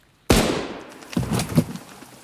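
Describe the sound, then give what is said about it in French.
A gunshot fired in a wood: one sudden, loud crack with a long fading tail, followed by a few softer, rumbling bursts. “Après 5 minutes, Raph se retourne et d'un hochement de tête fait signe à Bordeaux de tirer.”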